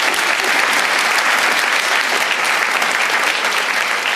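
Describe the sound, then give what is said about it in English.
Audience applause for a panel at an evening event celebrating an Australian classic film's 50th anniversary: dense, steady clapping that holds at an even loudness throughout, with no voices standing out. “Please give our panellists a warm round of applause.”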